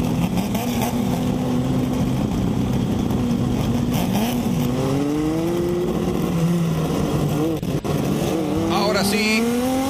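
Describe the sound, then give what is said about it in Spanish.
Race cars accelerate on a track, engines loud and continuous, with several rising engine pitches overlapping as the cars speed up, while a commentator talks excitedly over the roar. “Acelera Christian Fripp, acelera Aristimuño, acelera Pereira, acelera Sellanes y también Montaña con la cámara a bordo.”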